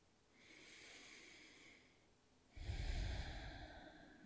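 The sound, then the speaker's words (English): One full breath taken during a guided meditation: a soft, slow inhale, a short pause, then a longer and slightly louder exhale, with no talking. “One more full breath.”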